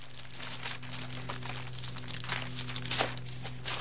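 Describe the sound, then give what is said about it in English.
A brown paper bag is opened and a piece of pie is taken out. It sounds like faint, irregular crinkling and rustling of paper, with soft crackles over a low, steady hum. “he opens the brown paper bag and takes out a piece of pie.”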